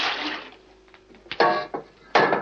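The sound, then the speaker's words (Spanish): Water tipped out of a washbasin: a soft wash of liquid fades out, followed by a few louder, sharper splashes as the water pours out. “Justina tira el agua de una jofaina.”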